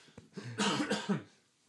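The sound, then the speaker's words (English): Throat clearing from a man with a frog in his throat: one short, rasping, voiced burst with a faint click just before it, heard alone. “frog in the throat.”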